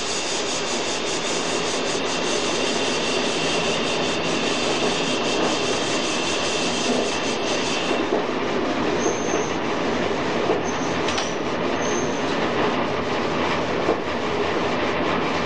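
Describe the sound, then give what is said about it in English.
A train brakes for a signal on the approach to a junction toward Camden Road or Junction Road. A steady rumble and wheel rattle run throughout, with a few brief, high brake squeals in the second half. “I'm just going to start braking for this signal now.”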